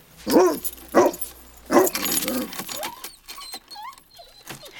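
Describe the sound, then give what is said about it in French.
A dog barks a few times, sharp and loud, as it breaks its kennel chain and escapes. Quieter sliding tonal sounds follow. “Cléo brise la chaîne de sa niche et se sauve.”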